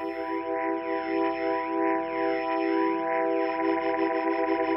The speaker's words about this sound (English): where the speaker itself has physically rotating elements that add this spinning chorus effect to the sound of the instrument. It can be sped up and slowed down.